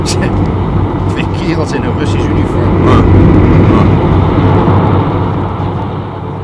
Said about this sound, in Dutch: Hij rijdt nou gelijk met ons op, net. Kleine wagen, zo'n gestroomlijnd ding, weet je wel.